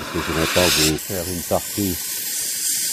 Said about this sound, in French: Donc là, on va véritablement passer à la phase active. On chauffe. Voilà, la flamme.